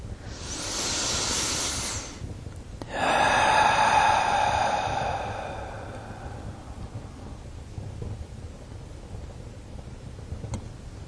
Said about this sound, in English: Being takes a deep breath